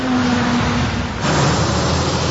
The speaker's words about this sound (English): for decades, the sound of transport trucks has long been part of everyday life along Huron Church Road